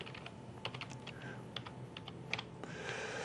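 Fast, light keystrokes on a computer keyboard as a database name is typed, many quiet, irregular clicks over a faint background hiss.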